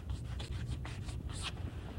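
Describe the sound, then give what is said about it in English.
A pen scratches across paper as text is written out by hand, making short, faint scratching strokes over a low hum. “And I'm going to write it out because it is rather important, this law.”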